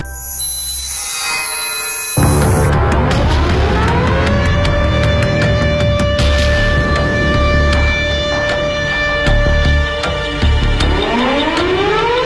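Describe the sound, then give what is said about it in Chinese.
Air raid sirens wail over a city in wartime. A loud, sustained tone rises in pitch, holds steady, then starts rising again near the end, with scattered sharp clicks and a low rumbling undertone. “这就是当时各个城市上空的防空空袭警报的声音，警报声像烽火台上的烽火一样，从一个城市传到了另外一个城市。”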